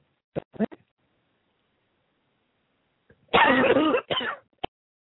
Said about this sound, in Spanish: Que iba a tener ese problemita de toser, perdón